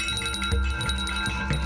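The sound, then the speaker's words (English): Bell-like chiming used as the sound of a key: a few bright, ringing strikes whose sustained metallic tones overlap and hang on at steady loudness, with no voices. “So we use this key. It sounds like this.”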